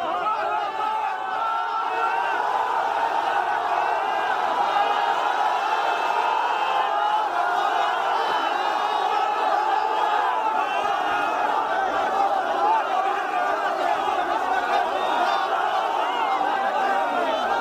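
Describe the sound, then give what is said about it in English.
A crowd cheers and shouts in jubilation as a family is pulled from a collapsed building in a Syrian village. Many voices whoop and call out together in a steady, unbroken roar. “Here's the sound of jubilation from the crowd today as a family was being pulled from a collapsed building in a Syrian village.”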